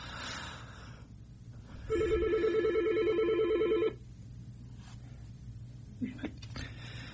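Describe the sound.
An incoming telephone call rings as one steady electronic burst lasting about two seconds, a bright buzzy tone that stands out loudly above a low background hum, which continues after it stops.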